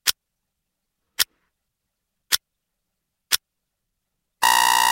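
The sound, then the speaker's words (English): A radio quiz's five-second countdown timer: four crisp ticks about a second apart, then a loud, harsh buzzer that cuts in at the end. “This is the sound of the 5 second countdown.”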